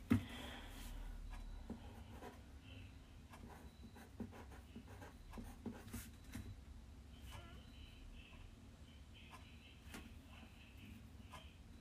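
A pen scratches on paper as someone jots answers to a set of problems, many small strokes and taps in an uneven rhythm, faint and steady throughout.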